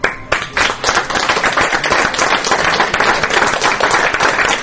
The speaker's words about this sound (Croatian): Ovim aplauzom publika u Medija centru u Beogradu otpratila je posljednje kadrove jednočasovnog dokumentarca